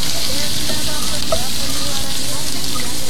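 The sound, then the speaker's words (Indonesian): Sizzling of food frying while someone cooks: a continuous bright hiss with small crackles and pops throughout. “Aduh Inai, siapa sudah masak ini? Perut lapar nih, jam begini masak juga belum habis.”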